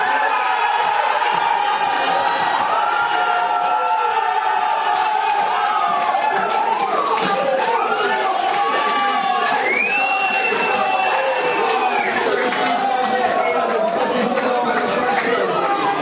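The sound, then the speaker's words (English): Crowd cheering and shouting at a live poker tournament as the final hand of a bracelet win plays out, a loud continuous roar of voices with whoops rising through it. “Here's the last hand. Just give you a feel of what this crowd is like in there.”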